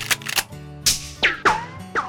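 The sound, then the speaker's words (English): A Daisy 120th Anniversary Edition BB gun with a tiger maple stock being fired: several sharp, snappy cracks in an uneven series, the later ones trailing a quick falling ring. “I thought I'd try out my newest collectible. Look at this. The 120th Daisy Anniversary Edition BB Gun.”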